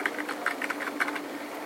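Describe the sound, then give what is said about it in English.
Fingers type a web address on a computer keyboard, producing many quick, light key clicks in an uneven rhythm. The sound is faint and stands alone, with no voices. “So I'm typing bristolcc.edu/ and a tilde and my username.”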